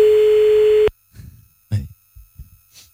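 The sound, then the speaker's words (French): A steady telephone tone sounds on an outgoing call, holding for just under a second before cutting off abruptly. A voice then speaks in short bursts. “On y va, on appelle Antonino.”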